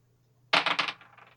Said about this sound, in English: I got a 17. My D20 rolled away. I gotta go find a new one.